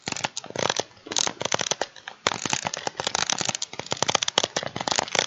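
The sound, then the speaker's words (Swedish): Four Sega Mega Drive controllers clatter and squeak as their buttons are mashed, a dense, continuous stream of sharp crackly clicks with no voices. “men jag kan klippa in lite här hur våra Mega Drive, eller hur alla våra fyra Mega Drive-kontroller låter.”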